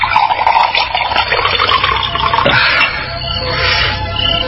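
Water is poured out for drinking as soldiers are offered water in a village head's reception hall. It is a steady, splashing liquid sound that continues throughout at a fairly loud level, with no talking.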